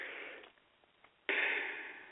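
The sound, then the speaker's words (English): A breath drawn in close to the microphone, heard alone: a sudden airy hiss that starts abruptly after a quiet stretch and then tapers off slowly. “See how I just took that breath?”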